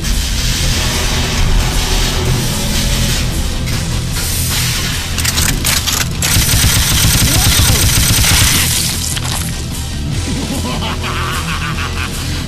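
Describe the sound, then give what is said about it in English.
A cartoon weapon called the Cheddar Shredder fires in a loud, unbroken barrage of rapid gunfire-like blasts and booms that lasts the whole stretch, dense and chaotic throughout. “Death cheese! Prepare to fire the Cheddar Shredder!”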